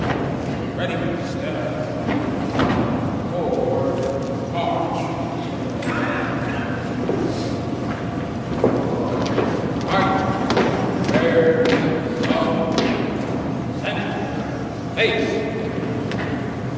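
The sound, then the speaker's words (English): Hard-soled shoes thump step by step up stairs inside Washington National Cathedral as President Carter's casket is carried in, a series of dull irregular footfalls over a steady murmuring, echoing background. “You can hear every step with the hard shoes.”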